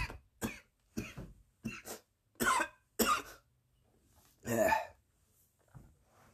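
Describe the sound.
Coughing and throat clearing from a person with an irritable throat: a series of short, harsh bursts with brief gaps, loud and alone with no talk.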